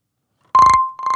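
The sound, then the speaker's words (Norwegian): Telephone bell ringing in two loud, trilling bursts after a short silence, each with a metallic, rattling ring. “Det kommer inn en telefon.”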